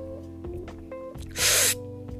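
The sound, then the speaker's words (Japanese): One short, airy hiss of air sucked in through pursed lips, as if through a straw, during a facial exercise demonstration. It stands out briefly over a steady low hum. “ストローがそこにあると思って吸おうとすると自分の顔がどうなっているかイメージがつくと思います一度エアーでもいいので吸ってみましょう”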